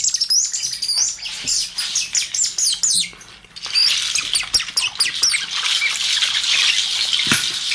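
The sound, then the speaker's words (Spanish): Bird decoy whistles sound rapid, high chirps, tweets and squeaks in busy, irregular bursts, fairly loud, with a brief lull partway through. “Reclamos de pájaros.”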